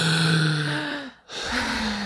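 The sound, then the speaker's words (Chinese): A deep breath let out as a long, voiced sigh. It breaks into a brief silent pause partway through and then resumes more softly, with no talk over it. “这样子，好，深呼吸。”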